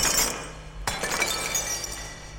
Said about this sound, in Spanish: Descubrieron una escoba y con su largo mango intentaron hacer añicos cuanta lámpara y cristal quedaban a su alcance.